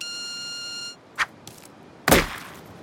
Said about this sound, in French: Fin du message. Autodestruction.